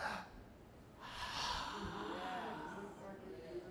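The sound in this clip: A voice imitates God breathing out: a single soft, breathy exhaled rush of air, faint and unvoiced, with no words spoken.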